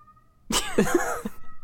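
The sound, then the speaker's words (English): A pet cat screams loudly from downstairs in one drawn-out, wavering yowl of about a second, harsh and strongly harmonic, followed by a brief fainter tail. “So Clyde's dead, but that's our cat now screaming in the background. Is that the cat?”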